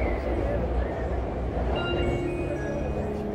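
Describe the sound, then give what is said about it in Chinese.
A Nanjing metro train runs with a steady low rumble and rolling rail noise throughout, even and unbroken. “本次列车开往八卦洲大桥南站，请给老幼病残孕及需要帮助的乘客让个座。”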